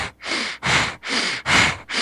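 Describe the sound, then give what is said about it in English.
Strong bellows breathing drives air forcefully in and out through the diaphragm, giving loud, rushing, airy breaths in a steady rhythm. Each breath lasts about half a second, with no talk. “like a bellows. You're breathing in strong and out strong, in strong and out strong”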